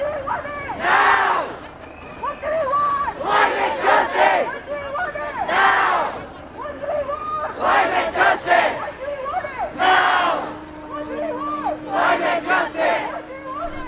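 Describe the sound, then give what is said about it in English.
Tens of thousands of people chant together at a climate march in Glasgow, Scotland, with loud rhythmic shouted phrases rising in repeated waves over a constant crowd roar. “The sound of tens of thousands of people gathering in Glasgow, Scotland last weekend to raise their voices for faster and more dramatic climate action.”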